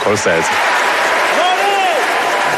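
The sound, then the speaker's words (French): Applause as a standing ovation for Martin Scorsese at the Oscar ceremony: steady, dense clapping from a large audience, with a voice speaking over it. “Et voilà, vous entendez Bong Joon-ho, donc il lance une standing ovation pour Martin Scorsese.”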